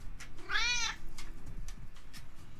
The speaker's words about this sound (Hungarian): Nem tudom, mi történt a macskával, de teljesen be van gőzölve.